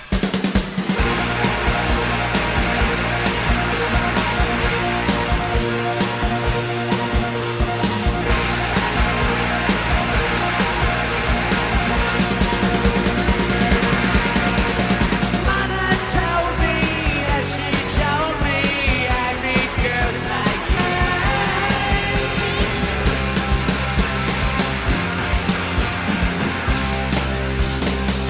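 A live rock concert recording from 1978, with loud, dense band music from electric guitars, bass and drums. The music plays continuously at full level and the texture shifts about halfway through.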